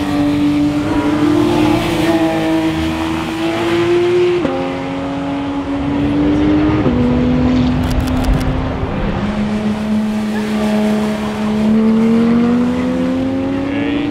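A Porsche sports car accelerates hard on a race track, its loud engine climbing in pitch and dropping back at several gear changes before rising again, with no talk over it.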